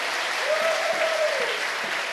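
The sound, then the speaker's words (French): Congregation clapping hands for the Lord during a thanksgiving church service: continuous, dense applause from many people, loud and even, with a brief sustained vocal tone rising above it. “Acclamons le Seigneur. Let's clap for the Lord. Acclamons le Seigneur bien fort.”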